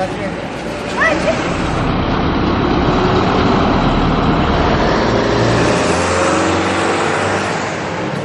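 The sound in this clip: Cars pass along a busy road in central Baku, on a stretch of avenue where children play football, with a steady, loud rush of engines and tires throughout and brief voices near the start.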